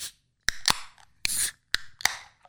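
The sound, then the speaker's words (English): Cracking open a 16-ounce beer can: a few sharp metallic snaps and clicks, with a short fizzing hiss of escaping gas between them, fairly quiet and with no talk. “It's got that deeper crack. These are 16-ounce cans for the trained listener out there.”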